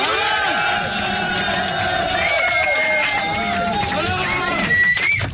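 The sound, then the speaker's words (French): A crowd cheers through a standing ovation for a performer, a continuous roar of shouts and whoops with rising and falling cries cutting through, loud and sustained throughout. “Peut-être mettre debout pour les saluer, peut-être pour la standing ovation quand même pour Alain de Brest.”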